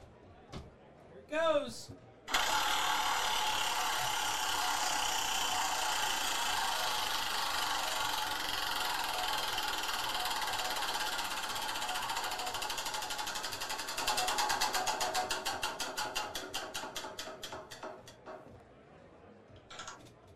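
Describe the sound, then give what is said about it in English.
A prize wheel spun at a gift-card drawing whirs steadily for several seconds, then breaks into rapid ticking clicks that gradually slow and space out until the wheel stops. “I've been spinning all the wheels today, but if you want me to spin it, do it. I'll do it. Yeah. All right. I'm excited, boys. I'm going to go up there, and I'm going to spin it.”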